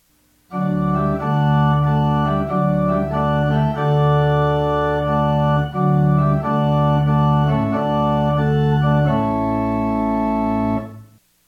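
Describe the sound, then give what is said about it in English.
A pipe organ plays a principal chorus combination on pedal and manual: a series of loud, full sustained chords moving step by step, ending on a longer held chord that cuts off cleanly. “Play notes on the pedal and manual to hear the sound of the principal chorus combination.”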